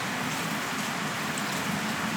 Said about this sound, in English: rain outside my open windows as I record this